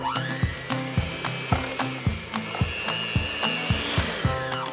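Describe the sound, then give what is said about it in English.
An electric mixer whirs as it beats powdered sugar into frosting until creamy. The motor gives a steady whine over a regular, repeating thump of many beats, fairly quiet, with no talk. “I'll get a cup of powdered sugar and I'll mix it until creamy.”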